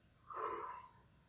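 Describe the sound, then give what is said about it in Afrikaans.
A single deep breath taken during a guided breathing exercise, a faint, airy swell of breath noise lasting about half a second. “haal ek 'n diep asem saam met my in die neus en uit die mond.”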